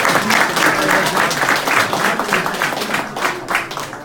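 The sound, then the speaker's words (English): Loud, dense applause from a rally crowd giving a standing ovation, the clapping staying strong throughout and easing only slightly near the end. “everybody stands up and gives him a standing ovation”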